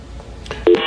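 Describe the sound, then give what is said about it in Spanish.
Electronic telephone line tone after a call is cut off: a brief, steady tone that comes in abruptly near the end and holds at a fairly loud level over faint background noise. “Ya se cortó la llamada con Elizabeth.”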